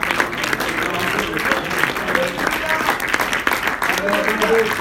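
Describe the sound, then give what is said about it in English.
Hand clapping from an audience at a religious service, a dense, steady wash of applause that stays loud throughout, with voices and some musical tones mixed underneath. “If you love the Lord, why don't you put your hands together and clap for the”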